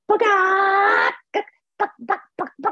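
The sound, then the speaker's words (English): A human voice imitates a barking dog, giving one long, wavering, howl-like cry followed by five short, sharp yelps in quick succession. “people got up and they were clucking like chickens and barking like dogs, like,”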